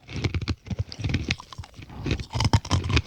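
Macadamia nuts being eaten: many irregular, crisp crunches and chewing clicks in quick succession, fairly loud and close.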